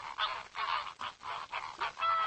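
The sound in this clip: A flamingo calls in a rapid series of nasal, goose-like honks, short bursts of varying length following one another without pause, faint and alone.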